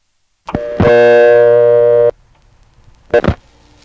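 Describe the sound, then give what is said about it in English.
Telephone line sounds as a 7 is dialed into a Harrisonburg callback circuit on an old trunk line: a click, then a steady buzzing tone for over a second that stops abruptly, then quiet hiss and a short burst of clicks. “We dialed a 7, that goes to Harrisonburg.”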